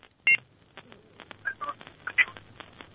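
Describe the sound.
Telephone dialing tones from a caller phoning in to a radio show, a string of many short electronic beeps at irregular intervals, fairly faint, with one or two louder tones near the start.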